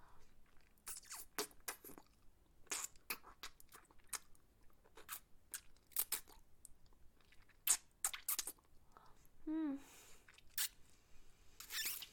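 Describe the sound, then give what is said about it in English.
Faint wet licking and mouth sounds form many short, irregular smacks and clicks, with a brief low vocal sound partway through. “Why don't I, lick that up?”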